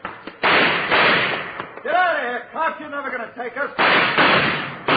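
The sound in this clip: Gunshots ring out during a police standoff at a surrounded building: loud, dense bursts of blasts open and close the stretch, with a man shouting in between.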